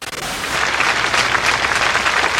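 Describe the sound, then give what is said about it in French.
Dense, steady applause from an anonymous crowd paying tribute as a children's funeral procession passes, a continuous loud patter of many hands clapping with no shouts or voices. “Pas de cris, juste des mains anonymes qui applaudissent.”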